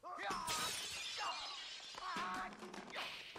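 Breakaway glass shattering in a staged fight scene: a dense, loud, sustained crash of breaking and splintering that stays busy throughout.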